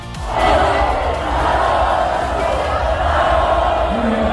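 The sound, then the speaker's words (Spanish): A large crowd of spectators at a Formula 1 event chants for driver Fernando Alonso to stay another year in the sport, a loud, continuous roar of massed voices that holds steady throughout. “Mira, esta es la imagen que se producía hace unos instantes con todo el público que había ido a ver la jornada de hoy, diciéndole a Fernando Alonso que siga un año más en la Fórmula 1.”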